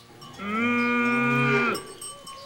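A cow lows beside her calf, one long steady moo that holds an even pitch for more than a second before breaking off, with quiet background noise around it.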